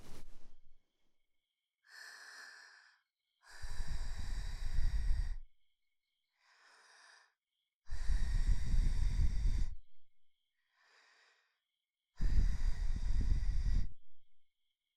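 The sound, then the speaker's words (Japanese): Soft ASMR breaths blown into the ear: three strong, airy blows with a deep rushing low end, each preceded by a quieter, thinner breath, alternating with silence. “最後に耳に息を。失礼しますね。”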